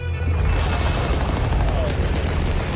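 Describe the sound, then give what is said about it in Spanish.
Enemy gunfire in a dense, continuous, loud roar of booms and shots blending into one unbroken barrage rather than separate distinct reports. “en medio de este estruendo de las armas enemigas”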